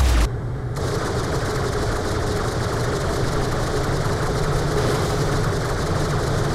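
Rapid gunfire in a video game: dense, continuous bursts of automatic shots running the whole time over a steady engine-like drone, fairly loud and unbroken.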